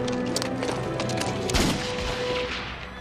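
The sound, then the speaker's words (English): Gunfire in a gunfight as two guns go off at once, a single sharp, loud burst cutting through a steady background midway through. “And so he draws on Wild Bill. Two guns fire.”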